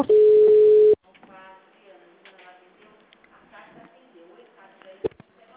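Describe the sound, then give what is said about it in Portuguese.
A steady telephone line tone sounds while a hospital call is transferred: a single loud, level tone holds for about one second, then cuts off and gives way to faint, quieter sounds and voices. “Só um momento que eu vou transferir a ligação, tá bom?”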